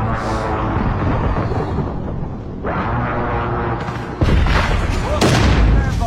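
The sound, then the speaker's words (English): Precision airstrike explosions in a video game: a few heavy booms over continuous loud rumbling battle noise, the blasts growing louder and denser toward the end. “Enemy precision airstrike.”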